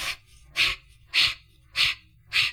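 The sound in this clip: Fast rhythmic breathing exercise with quick breaths in and out: five sharp, evenly spaced breath bursts about every half second, alone with no talk.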